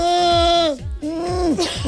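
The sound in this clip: A singer's vocal warm-up that resembles a bleating goat: a few sustained, wavering voiced notes that bend downward at their ends, loud and breathy, with no words spoken.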